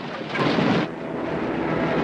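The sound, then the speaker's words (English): Bombs exploding on an airfield make a loud, dense, rumbling roar that swells hardest in the first second and then holds as a sustained heavy rumble. “Everybody runs for cover as bombs start raining down on the airfield.”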